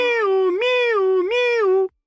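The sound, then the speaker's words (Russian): Kittens shout a happy meow in one loud, continuous high cry of about two seconds. It wavers through three joined meow-like swells at a steady pitch, then cuts off abruptly into silence. “И котята радостно закричали. «Здорово! Миу!”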